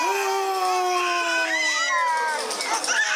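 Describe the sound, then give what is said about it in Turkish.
Several babies wail together at a baby-crying contest where masked judges try to make them cry, their loud, overlapping cries drawn out and sliding downward in pitch, with crowd noise underneath. “Eğer bebekler ağlamazsa hakemler devreye giriyor. Yüzlerine korkutucu maskeler takıp bebekleri ağlatmaya çalışıyorlar.”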